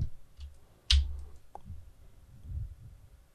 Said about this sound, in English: move my mouse, move my cursor over here like that.